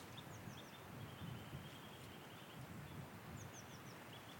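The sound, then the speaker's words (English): A distant nuthatch calls in springtime oak woods in the Brecon Beacons. Two brief runs of a few short, high piping notes, one near the start and one near the end, sound faintly over a steady wind-like hiss. “Yeah, that's a nuthatch.”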